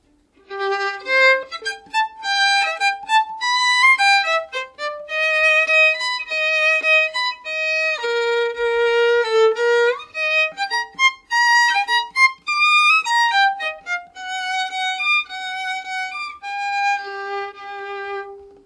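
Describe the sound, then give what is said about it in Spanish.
Bouncy orchestral melody meant to depict a happy boy skipping along, with many short, lilting notes in a springy rhythm that rise and fall in steady loud phrases, played alone without any voices. “A mí siempre me ha hecho mucha gracia esta melodía porque es como un niño muy contento que está dando saltos.”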